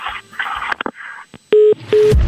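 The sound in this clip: Telephone keypad tones sound as a number is dialed for a prank call. Two loud, steady beeps of about a fifth of a second each follow a run of short clicks and handling noises.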